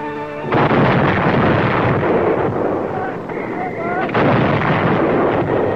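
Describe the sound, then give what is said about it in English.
Marine howitzers fire at extreme elevation on Guadalcanal, heavy booming blasts that roll into long, loud rumbling. “The guns fire at extreme elevation, so shells will drop into Jap positions in narrow gullies.”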